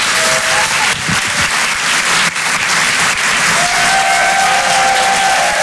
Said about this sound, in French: Je vous demande de faire un maximum de bruit, s'il vous plaît, pour Richard Sabac.